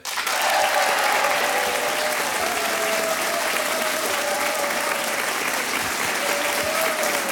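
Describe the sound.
Loud, dense audience applause greets the first pair of contestants on a midday game show held in the Auvergne village of Pont-Gibaud, a steady roar of clapping that continues unbroken for about seven seconds.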